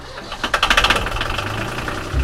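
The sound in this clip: A boat engine runs with cooling water coming out of the exhaust, giving a loud, rough mechanical chug with a burst of rapid knocking pulses early on before settling into a steady churning drone.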